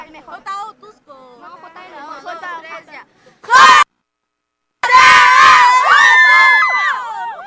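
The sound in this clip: Crowd cheering for the parents and the school in Otuzco at a school event: voices at first and a short loud burst, then after a pause a dense, sustained roar of cheering and high shouts.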